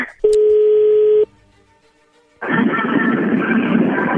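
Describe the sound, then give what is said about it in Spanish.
A telephone tone as a call is being placed: one steady, sustained electronic tone lasting about a second, a short quiet gap, then loud dense noise that continues to the end. “Bueno, vamos a llamarle a Lucio.”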